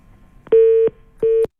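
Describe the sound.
Telephone tone after a caller hangs up: two loud, steady mid-pitched beeps, the first slightly longer than the second, separated by a short gap and heard alone.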